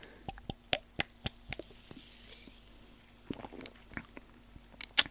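Tasting a fizzy orange soda from a lemonade bottle: faint, scattered wet clicks and mouth smacks, soft and intermittent, with no talk.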